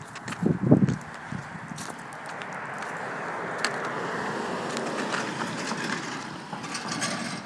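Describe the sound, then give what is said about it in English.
A trailer rattles past a house, recorded in mono on an iPhone: a few sharp knocks at the start, then a steady low rumble scattered with clanks and mechanical rattles that builds and lingers to the end. “What the hell is that? A trailer?”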